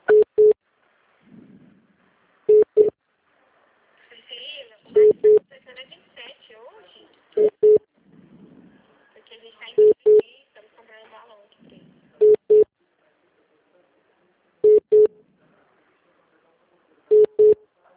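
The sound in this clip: Paired short telephone beeps at a steady mid pitch repeat at an even rhythm, about eight double beeps, while a phone call is being transferred, with faint muffled voices murmuring in the gaps between them.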